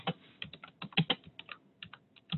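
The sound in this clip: Typing on a computer keyboard while writing the title of a paper, with many quick, irregular key clicks and taps in short bursts. No one speaks over the clatter.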